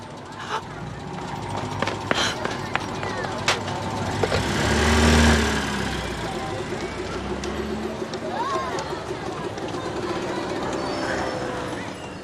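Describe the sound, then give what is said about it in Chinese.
Cars pass along a street over a low, steady engine rumble, and one vehicle swells loudly as it rushes by midway before the traffic noise settles back. “走路你看点车呀。”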